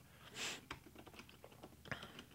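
Someone types on a computer keyboard to search online, with faint, quick, irregular key clicks and no talk.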